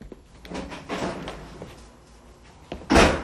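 A door is opened with a few soft bumps and clicks, ending in a louder, sharp burst of noise at the end.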